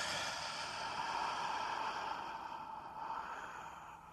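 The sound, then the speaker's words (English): A long, slow, deep breath drawn in: a steady, soft, airy hiss that lasts about four seconds. It is quiet and heard alone, easing off gently toward the end. “Big, long, slow breath in.”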